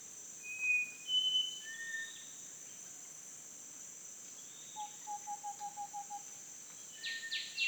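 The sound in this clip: Jungle bird calls: scattered high, clear whistled notes and a quick run of short repeated chirps, heard over a steady, high insect drone.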